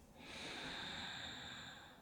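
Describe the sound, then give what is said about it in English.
A deep breath drawn in through the nose during a guided relaxation exercise: a soft, steady airy hiss that swells and holds for about two seconds, faint and alone with no talk. “let's go ahead and take a couple of cleansing breaths right now. So breathing in through the nose,”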